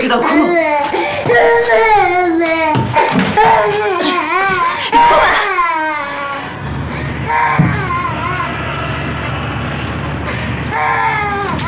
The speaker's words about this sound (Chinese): 你天到晚就知道哭，你哭吧。